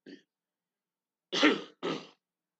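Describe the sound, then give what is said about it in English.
Two quiet coughs from one person, a husky burst followed shortly by a second, shorter one, with a faint brief sound before them. “excuse me, I had to cough.”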